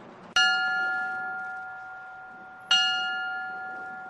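A memorial bell tolls in Moore, Oklahoma, marking one year since a deadly EF5 tornado. Two clear, resonant strikes land about two seconds apart, each ringing on with a long, slowly fading tone.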